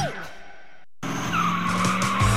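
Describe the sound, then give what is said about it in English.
Tires squealing from a drag racing car at a street drag race on historic Route 66 in Kingman. A short burst breaks off into a brief silence, then a loud, sustained screech follows, with car engine noise. “Go racing! The Kingman Route 66 Street Drags presented by Merton's Equipment Repair and Bobcat of Kingman are back and burning up historic Route 66”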